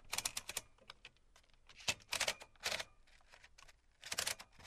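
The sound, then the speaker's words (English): Royal typewriter typing on cardstock: bursts of crisp, sharp keystrokes, many rapid clicks in irregular clusters with short gaps between, fairly faint and with no voices. “So let's hear these machines and see them in action. Yeah, so what I'm going to do is on the Royal, I like writing on the cardstock”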